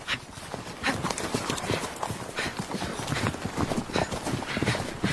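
Horse hooves clip-clopping under a rider seated astride. A quick, uneven stream of hoof strikes continues throughout at moderate loudness.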